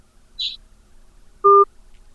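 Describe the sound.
An electronic telephone keypad tone sounds as a number is dialled to call a reserve prize winner: a brief high blip, then one louder, steady two-note tone, alone on a quiet line.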